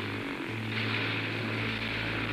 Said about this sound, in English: I'm over mountains. I can't land. Maybe I'd better ease back on the throttle and see if I can get this thing running better.